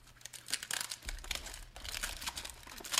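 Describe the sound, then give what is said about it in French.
Crinkling and tearing of packaging as a wrapped item is unwrapped, with busy, uneven rustling bursts that run through the whole clip at moderate loudness. “Je vais te le déballer pendant que tu as une petite carte.”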